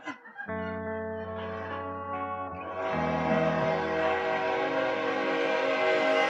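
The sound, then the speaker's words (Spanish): A train sound effect plays as a long, sustained, horn-like chord over a low rumble, turning fuller and brighter midway, with a heavily processed, distorted tone. “Viene con un tren”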